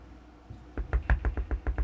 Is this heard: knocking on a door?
yes